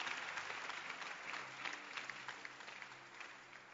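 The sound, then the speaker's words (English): An audience clapping their hands makes a steady, dense wash of many claps. It is sustained evenly throughout and sounds fairly faint. “Can you clap your hands? Is it possible?”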